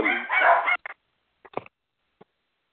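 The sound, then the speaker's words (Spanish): The speaker's own dogs bark: first a loud, rough burst, then a few short, fainter yips and whimpers spaced out over the next two seconds. “están los perros míos wilding out”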